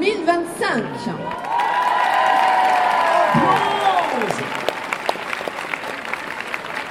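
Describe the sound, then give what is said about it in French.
A crowd gives a loud ovation to welcome the future pastourelles at a traditional ceremony: dense, sustained applause with cheering and shouting voices rising over it throughout. “Donc, nous allons faire une ovation et accueillir nos futures pastourelles”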